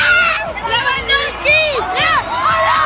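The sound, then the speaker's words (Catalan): A huge crowd celebrates Barça's league title parade in central Barcelona, a dense, unbroken roar of cheering and shouting with whoops and whistles that rise and fall throughout. “750.000 persones, segons la Guàrdia Urbana, desborden durant 5 hores al centre de Barcelona per la rua de celebració del títol de Lliga del Barça. Públic embogit.”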